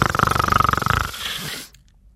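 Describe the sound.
A voice imitates snoring with a pitiful, rattling 'kho-ko-ko' sound: many rapid throaty pulses for about a second, then a softer breathy rasp that fades into silence.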